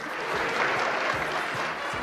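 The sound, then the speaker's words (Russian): Audience applause after a stage performance in a musical programme, a soft, even wash of many hands clapping, with a few dull low thumps underneath. “Все еще хлопают, слышите?”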